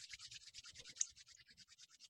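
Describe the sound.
Hands rub briskly together in many quick, even strokes of dry, hissing friction. The sound is faint and heard alone.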